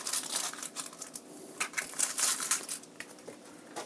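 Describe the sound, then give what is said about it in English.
Papery outer skin crackles and crinkles as the outermost layer is peeled off an onion half, in many quick, irregular bursts of dry rustling. “Then I'm taking one of those halves and peeling off the outermost layer of this onion.”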